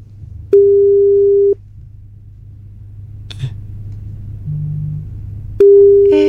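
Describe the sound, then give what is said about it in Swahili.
Telephone tones sound as a call is placed: two long, steady mid-pitched tones several seconds apart, with a low hum and a faint click in between. “Let us make the call right now.”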